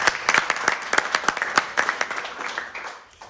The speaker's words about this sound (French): une grosse main de félicitations à eux